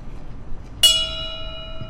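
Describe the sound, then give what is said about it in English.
A single bell struck at a memorial for shooting victims, where names are read aloud: one bright, sudden strike that rings on with clear tones and fades over about a second above faint background noise. “One by one, they read the names of the victims, and State Senator Gary Farmer rang a bell after each one.”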